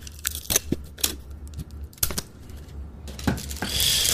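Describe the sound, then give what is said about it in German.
Crinkling, crackling bursts of wrapping paper and short snipping sounds as a Christmas present is wrapped, several sharp rustles with brief pauses between, no voices. “Aber ich muss mal gerade dein Geschenk einpacken.”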